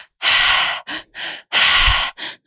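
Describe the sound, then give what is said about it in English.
Loud breathwork in a triactive pattern: in through the belly, up into the chest and out through the mouth. Two cycles, each a long forceful breath followed by two shorter ones, with clear pauses between. “one of the most intense breathwork pattern in the pause technique is called the triactive breath. So it's in through the belly, up into the chest, and out through the mouth.”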